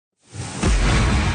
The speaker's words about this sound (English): That's the sound of an anti-hail cannon. It shoots shockwaves into the sky and stops hailstones from reaching the ground in solid form.